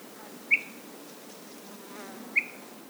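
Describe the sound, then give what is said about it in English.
Insects on the summit of Mount Israel in the White Mountains give two brief, high, sharp chirps about two seconds apart over a faint, steady outdoor hiss. “Though Wilkes has only been recording for a few days, his audio map of the White Mountains is already studded with sounds, from the birds and bugs atop Mount Israel,”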